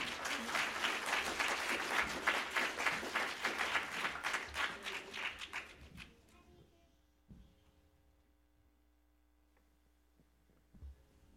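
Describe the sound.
A church audience applauds to welcome a gospel singing group from Harriman, Tennessee. Dense, steady clapping lasts about six seconds, then dies away, leaving a low electrical hum.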